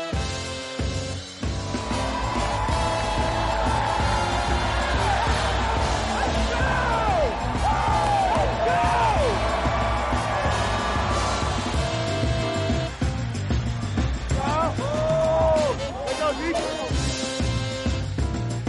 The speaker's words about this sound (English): Welcome inside the Superdome here in New Orleans.